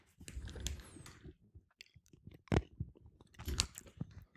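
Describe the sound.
Chewing on a marinated olive: moist, crunchy munching that comes in short bursts, with a couple of sharper, louder bites toward the middle and the end.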